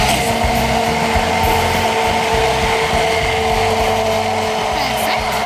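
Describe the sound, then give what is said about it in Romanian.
A kitchen blender whirs steadily while mixing ingredients for a Romanian cake, a loud, constant motor drone with a high whine that holds at the same pitch throughout. “Uite, te las pe tine să blendezi.”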